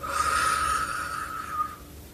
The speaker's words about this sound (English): So we're gonna inhale for six.